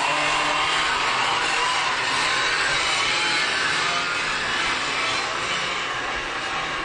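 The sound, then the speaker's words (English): Race cars roar around Lazowski Speedway, a loud, steady wash of engine noise that holds without a break for the whole stretch, with no talking. “Incredible racing action here at Lazowski Speedway.”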